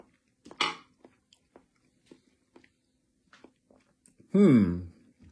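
Chewing Chef Boyardee macaroni and cheese with mushy noodles during a taste test: a brief crunchy clatter, then soft, faint, sparse wet clicks, ending with a louder voiced murmur.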